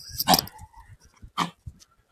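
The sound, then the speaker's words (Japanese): A dog vocalises at another dog passing by, letting out a few short, sharp bursts separated by brief pauses, with no talk over them. “ワンコとすれ違うと、結構、うーって言ったりするタイプのワンコだから、うちの子って。”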